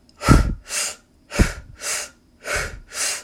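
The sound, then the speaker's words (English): Deep breathwork breathing through the mouth, six loud breaths alternating in and out in a steady, even rhythm, forming three full cycles with no talking. “in through your mouth and out through your mouth. So it's going to sound like this.”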